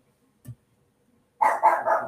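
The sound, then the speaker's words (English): Dogs bark in a quick, loud run of three barks near the end, after a mostly quiet stretch. “I'm going to text my husband and tell him to come get the dogs.”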